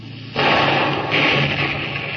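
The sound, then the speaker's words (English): A ship's forward gun fires a shot across a boat's bow during a harbor police chase: a sudden loud, broad blast followed by a sustained rough roar that holds at high level to the end. “Put another shot across your bow, Lieutenant. Aye, aye, sir. Board gun, fire!”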